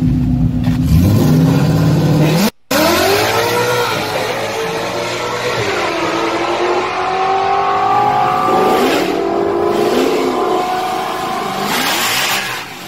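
A drag racing car with a stock 2.3 motor launches hard down the strip, its engine roaring loud and continuous with pitch climbing and dropping in repeated surges; the tires chatter on the run.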